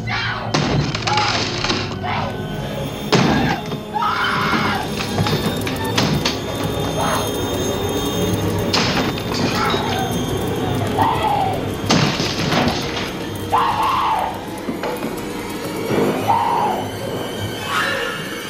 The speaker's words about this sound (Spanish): de la banda sonora del Resplandor, aquella película donde un zumbao va con un hacha persiguiendo, rompiendo todo.